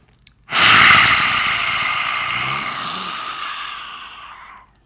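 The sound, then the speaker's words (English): Breath of fire breathing exercise: a brief sniffing inhale, then one long, forceful, hissing exhale through the nose that slowly fades over about four seconds. “You can get real angry with this one too. Inhale. Breath of fire, out. One more.”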